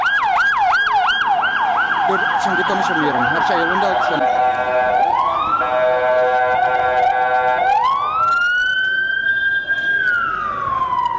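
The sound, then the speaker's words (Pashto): Ambulance and police car sirens heading to the scene of an explosion. A fast, loud warbling yelp gives way to long rising and falling wails that sound steadily throughout. “سیمې ته امبولانسونه او د پولیسو ګڼ موټر ور روان او د پیښې ټپیانو مړي انتقالول.”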